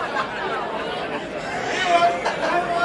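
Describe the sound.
Audience chatter fills a comedy club, with many overlapping voices talking at once in a steady, moderately loud murmur. No single voice stands out.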